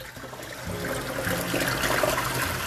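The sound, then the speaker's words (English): Water running from a tap, a soft, steady rushing flow that grows slightly louder after it starts and then keeps going evenly. “and I run the water,”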